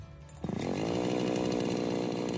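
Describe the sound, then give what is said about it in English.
A chainsaw starts up after a brief quieter moment and then runs at a steady, loud, buzzing whine, its engine note holding almost constant to the end. “Chainsaws are powerful and highly dangerous tools. Many growers are reluctant to allow inexperienced trainees into their plantations for the practical component of chainsaw training programs due to the safety concerns.”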